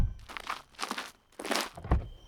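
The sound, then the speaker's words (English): Footsteps walking toward a car door: a few crunchy, scuffing steps of uneven spacing, moderately quiet and heard alone without talk. “That's right, step out, walk to my door and open it.”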